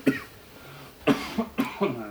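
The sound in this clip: Coughing fit as a person chokes: one sharp cough, a short pause, then a quick run of several harsh coughs, fairly loud and alone.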